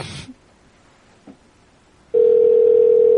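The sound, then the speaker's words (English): Skype call tone: a couple of faint clicks, then a loud, steady, unbroken electronic tone that starts partway through and holds to the end. “I'll call it on Skype. Here we go.”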